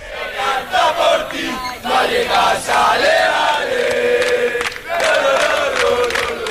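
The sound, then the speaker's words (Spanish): Rayo Vallecano football fans in Leipzig after a Conference League final chant and cheer loudly, their sung chants rising and swelling in waves, with a brief dip before the singing resumes. “sigue animando la afición del Rayo Vallecano”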